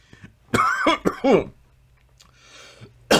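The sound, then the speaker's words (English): Coughing from a person who has choked on their own saliva: a few harsh, raspy bursts in quick succession, then a quiet pause before one more sharp cough. “Excuse me, choke on my own saliva.”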